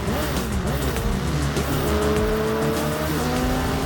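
Racing car engines from a video game trailer roar loudly and continuously, their engine tones shifting throughout.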